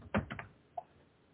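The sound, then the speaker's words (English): Someone types on a computer keyboard: a quick burst of a few soft key clicks, then one separate click, all faint with no voices. “I'm typing.”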